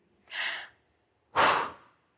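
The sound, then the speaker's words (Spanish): Two loud, gasping breaths from a diver surfacing after a dive, the first a breathy intake and the second a heavier rushing gasp, separated by a short silence. “4 bocanadas de aire. Las más importantes para que ese oxígeno vuelva a llegar a todos mis tejidos, a todos mis músculos y a mi cerebro.”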